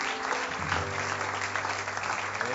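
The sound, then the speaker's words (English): Congregation clapping hands together during a church service: steady, dense applause with no pauses, running over a low sustained tone. “clap and pray.”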